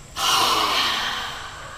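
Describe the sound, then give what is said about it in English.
Forceful exhale pushing stale air out of the lungs through the mouth in a breathing exercise: a single breathy rush that starts abruptly, stays strong briefly, then tapers off gradually without voices. “The operative thing first to do is to exhale all the stale air out of your lungs through your mouth”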